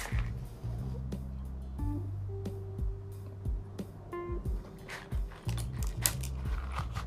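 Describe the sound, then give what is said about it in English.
Match strikes as a blunt in a green swish is lit: several brief, scratchy bursts flare over a steady low hum, uneven in timing and moderately loud. “And I lost my lighter. I can't find my lighter. I have matches. So if you're going to hear that on the match, so I'm sorry about that.”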